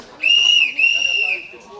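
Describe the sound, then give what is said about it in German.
A steam locomotive whistle on a passenger train sounds two long, steady, high-pitched blasts, nearly joined by a brief break, over a low rumbling background. “Also die Pfeife der Lokomotive dient ja mehreren Sachen. Zum einen erstmal ist es ein Warnton.”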